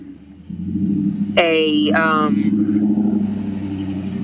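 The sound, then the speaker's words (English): Vehicles pass outside as a steady low road rumble that swells after the first half second and holds, with a voice speaking briefly over the traffic. “excuse the vehicles outside, because I am outside.”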